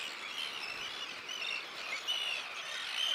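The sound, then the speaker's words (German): Calls of a breeding bird colony nesting on an old pontoon on the German North Sea coast: faint, dense chirping and high twittering that overlaps continuously without pause. “435 Brutpaare bauen in diesem Jahr auf dem alten Ponton ihr Nest.”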